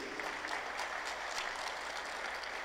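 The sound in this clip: Applause from an audience at a municipal gathering honouring a manager: a steady, even wash of clapping that holds at a moderate level for the whole stretch, with no speech over it.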